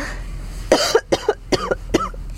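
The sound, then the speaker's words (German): Coughing after choking while swallowing during speech comes as a rapid series of harsh, raspy bursts in an irregular rhythm. Some coughs arrive in quick pairs, and they fade slightly toward the end. “Hust. Noch mehr Hust. Ja, hab ich verschluckt. Schlucken und Reden geht nicht gleichzeitig.”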